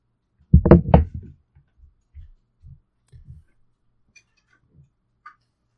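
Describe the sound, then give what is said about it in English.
A door being closed makes a quick cluster of loud, low thuds and knocks. A few faint, soft taps then trail off into quiet. “Okay, I'm back. I just needed to close my door.”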